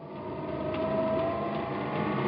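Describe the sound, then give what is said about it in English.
Steady mechanical whirring and humming of an elevator climbing fast to the roof of a 35-floor building, continuous and even throughout, with a faint sustained whine riding on top. “I've always wanted to run an elevator. Let's see how fast we can get to the roof.”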